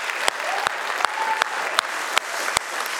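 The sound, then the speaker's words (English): Audience applause at a Father's Day church service honoring the dads, dense steady clapping with many sharp individual claps standing out, loud and continuous throughout. “Come on, can we give it up for the dads? Woohoo!”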